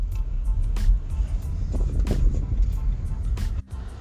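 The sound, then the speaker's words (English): A car drives on a road near construction in Mishawaka, Indiana, with a steady low road rumble broken by brief louder bursts of noise, then dropping off sharply just before the end. “Sorry. I was driving at the time, and there's some construction in Mishawaka.”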